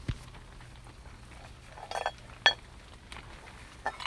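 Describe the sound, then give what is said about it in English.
Tibetan singing bowls struck a few times, producing short, bright metallic clinks spaced irregularly over a quiet background. “They are Tibetan singing bowls.”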